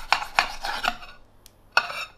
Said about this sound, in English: I put another plate over the top and then push down a little bit and then just slice the knife through like that.